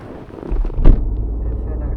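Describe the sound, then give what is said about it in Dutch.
Low engine rumble of a car driving toward a community building in Woerden. A deep, steady drone swells in after a quieter start, with one brief louder thump near the middle. “We rijden naar het stichtingsgebouw van de Molukkers in Woerden.”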